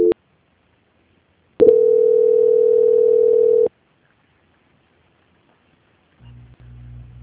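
Telephone line tone during a call transfer: a brief tone blip, then a steady mid-pitched tone held for about two seconds, followed by silence and a faint low hum at the end.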